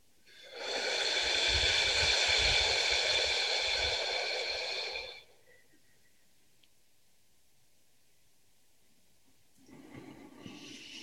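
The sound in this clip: A single deep exhale during a breathing exercise: a loud, steady, airy rush lasting about four and a half seconds, then near quiet, with faint breath noise returning at the end.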